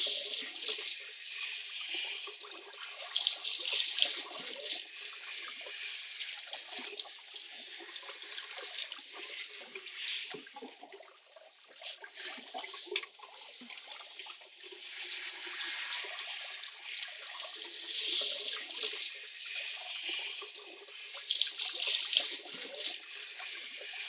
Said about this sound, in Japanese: 頭にかかる水流の音で、聞こえていないかもしれませんが。さて、このまま頭を洗いましょう。